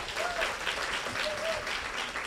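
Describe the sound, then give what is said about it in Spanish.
Applause from an audience of women at a talk on healing and forgiveness: dense, steady clapping that holds an even loudness for about two seconds. “Y si tú eres una de ellas, te mereces un aplauso. ¡Aplaudamos!”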